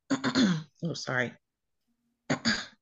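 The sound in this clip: A person clearing a dry throat: a few short, rough voiced bursts, then a pause and another brief burst.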